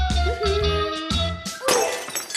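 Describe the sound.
Porcelain dishes shatter while a table is being set, a sharp crash and bright clattering burst arriving partway through over steady background music.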